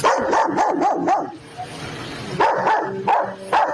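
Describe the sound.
A police dog barks at a suspect: a quick burst of sharp, loud barks, a short pause, then a few more barks.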